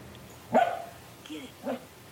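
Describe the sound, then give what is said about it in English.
Barking and yipping from a 10-month-old dog in Calgary reacting to a big fly, a few short, sharp bursts, the first loudest and the later ones quieter, all fairly faint. “A brand new experience for a Calgary dog with more signs of spring popping up, like bugs.”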